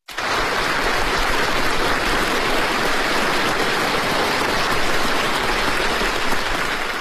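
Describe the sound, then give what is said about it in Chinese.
Warm applause fills a large meeting hall as Xi Jinping enters a session of military delegates. It starts abruptly and holds as a dense, even roar of many hands for about seven seconds. “当习近平走进会场时，全场响起热烈掌声。”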